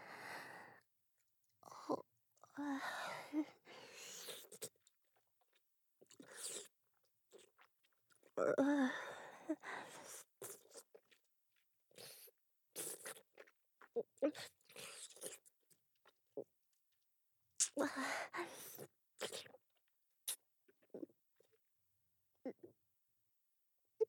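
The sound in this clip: Chewing and eating food, with irregular soft bites and crunches between breaths, at low level and without clear talk.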